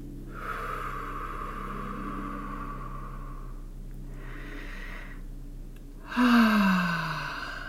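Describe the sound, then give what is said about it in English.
Slow, deep breathing during a guided relaxation exercise: a long, drawn-out inhale, then a shorter breath after a pause, and finally a louder sighing exhale whose voiced tone slides downward in pitch. “I just invite you to take a couple nice deep breaths with me here,”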